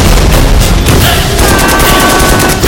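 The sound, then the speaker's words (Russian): An anti-tank rifle shot at a tank during battle, buried in loud, dense gunfire, with cracking blasts packed tightly across the whole clip. “Выстрел из противотанкового ружья с нашим лейтенантом.”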